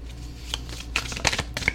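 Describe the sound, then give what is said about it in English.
Tarot cards being shuffled: a few quick, soft riffling bursts and light snaps, fairly quiet, with no talk over them. “Okay, we have a bunch of cards that flew out here. We have the Ten of Cups. We have Judgment.”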